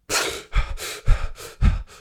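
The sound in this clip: A voice imitates the panicked gasping of chronic hyperventilation: a quick series of sharp, breathy intakes, several in a row with short gaps, fairly loud and alone.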